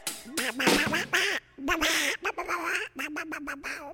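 Duck quacking in rapid runs of loud, nasal calls, many in quick succession, broken by a few brief pauses between bursts.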